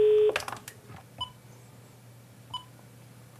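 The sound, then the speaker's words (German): A telephone is dialed to call a newspaper: a brief steady tone cut off by a clatter, then three short, faint key beeps spaced about a second apart over quiet background hiss. “Ja, das ist das bisherige akustische Zeichen, wenn man das wählt. Also rufen wir mal bei der Thüringer Allgemeinen an.”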